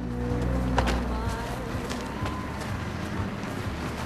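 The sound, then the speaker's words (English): A car pulling up at a diner in snowy weather, heard as a steady low engine rumble under broad, even road and wind noise with no clear change in level. “A car pulls up at a diner.”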